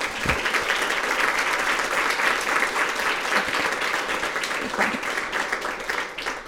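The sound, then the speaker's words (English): Enthusiastic audience applause, with dense, continuous clapping and a few sharper individual claps standing out, holding strong for about six seconds before easing slightly at the end. “that was incredible applause. Thank you so much for that.”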